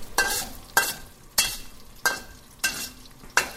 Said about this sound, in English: Okay, a little bit of Sichuan peppercorn, whole, and some whole dried chilies. Move that around pretty quickly.